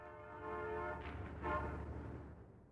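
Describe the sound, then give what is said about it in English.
A train horn hoots as the train approaches the station of Little Point by the sea: a steady, harmonic blast of about one second, followed by a louder rumble of train noise. “The train hooted”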